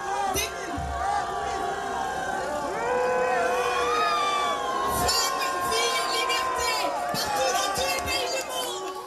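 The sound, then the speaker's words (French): A crowd boos a politician at a demonstration supporting Iranian women, a dense, continuous mass of shouting and jeering voices that holds steady and swells slightly partway through. “Sandrine Rousseau a été copieusement huée hier à la manifestation, en soutien aux Iraniennes”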